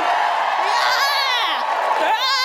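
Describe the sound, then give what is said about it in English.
Audience cheering and whooping, many voices shouting together at a steady, loud level throughout with no break. “Give me a cheer for immigration!”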